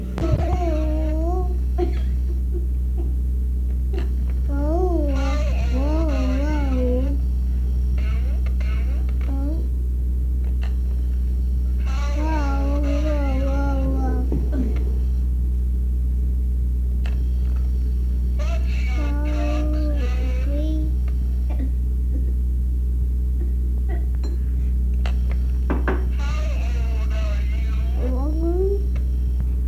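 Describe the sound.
A cat meows in reply to a little telephone. Several drawn-out, wavering meows come in separate bursts over a steady low electrical hum, and voices are heard intermittently.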